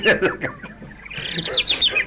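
Small bird chirping: after a busier, mixed stretch of calls, a run of quick, high-pitched short chirps repeats through the second half at moderate loudness.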